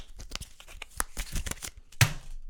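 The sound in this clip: A standard 52-card deck handled for a card trick: rapid crisp riffling and flicking of cards, with several dry crackles and one louder snap near the end, no talking.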